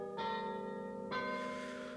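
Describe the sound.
Glockenspiel bells chiming, two bright struck chimes a second apart, each ringing on with long sustained metallic overtones, fairly faint.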